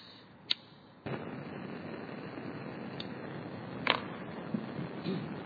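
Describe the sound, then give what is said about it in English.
Gas lit for a musical instrument played by fire: one sharp click, then a sudden steady rushing roar of burning gas that continues throughout, with a few faint crackles and pops. “Light the gas.”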